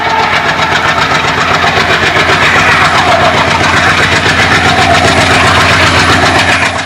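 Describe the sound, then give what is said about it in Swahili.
A train engine chugs on the Brazzaville to Pointe-Noire line in Congo in 1970, a loud, dense mechanical rumble with a fast, even pulse that runs unbroken from start to finish. “Wakiwa ndani ya treni hiyo, Balobi alivutiwa na sauti ya injini ya mashine ya treni na matalume ya reli jinsi yanavyosigana.”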